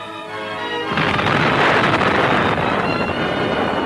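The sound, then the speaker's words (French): The first atomic bomb test explosion, in the New Mexico desert at night, breaks in abruptly after a sustained tonal passage as a loud, broad roar. It rumbles heavily and holds near full strength to the end. “La possibilité enfin découverte de diviser l'atome au moyen d'un neutron permit la naissance de la bombe atomique. C'est dans les déserts du Nouveau-Mexique qu'eut lieu de nuit la première expérience.”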